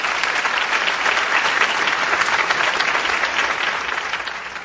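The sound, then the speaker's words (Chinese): Audience applause at a ceremony with guest speeches: dense, steady clapping from many hands that holds throughout and tapers slightly at the end. “大家再鼓掌。”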